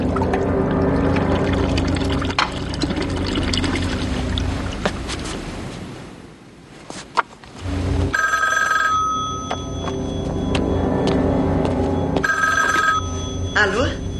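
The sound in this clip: A telephone rings twice, each a sustained electronic ring burst separated by a short pause, heard under people talking and steady background noise.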